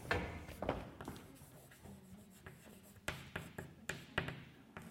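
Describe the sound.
Handwriting during a mathematics lecture: faint, irregular scratching strokes with light taps.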